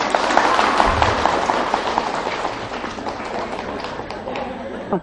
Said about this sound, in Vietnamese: Vỗ tay quý vị.